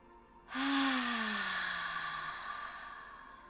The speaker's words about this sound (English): Close your eyes. Let's take a deep, beautiful breath in.